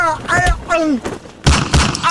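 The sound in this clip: Two sharp gunshot effects with low thuds ring out in a comic Italian radio sketch about a stolen purse. They follow animated voices and come in quick succession, loud and abrupt.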